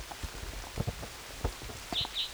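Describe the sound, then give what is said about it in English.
Rain falls during a field recording at Kinney Creek: scattered soft taps of drops spread unevenly over a quiet, low rumbling background, with two brief high chirps near the end. “Raining.”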